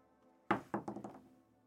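A ten-sided die is rolled onto a table: one sharp clatter, then a few quicker bounces that fade until it settles.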